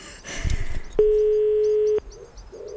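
A single ringing tone sounds on a phone call to the police. It holds steady at one even pitch for about a second, then stops. A brief faint noise comes before it.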